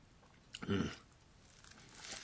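A crisp bite into toast topped with small diced apple pieces makes one brief, crunchy burst at low volume, followed by faint, softer noise.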